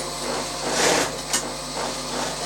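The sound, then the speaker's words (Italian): A Pfaff sewing machine stitches a shoe upper with a steady, fairly quiet mechanical whir that swells briefly before settling back into an even running hum. “questa è la puff che abbiamo, che utilizziamo per cucire la tomaia.”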